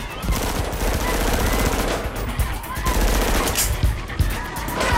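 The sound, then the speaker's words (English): A submachine gun fires a sustained volley down a corridor, a dense, rapid stream of loud cracks that runs for several seconds with almost no pause. “He lets loose with a volley of bullets at a group of men as they come out into the corridor.”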